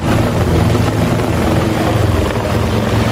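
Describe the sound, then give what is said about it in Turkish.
A rescue helicopter flies over a marshy pond in Valencia, Spain, during an effort to lift out a horse trapped in the bog; the rotor makes a loud, steady, low droning whir with no pauses. “Bölgeye kurtarma helikopteri sevk edildi.”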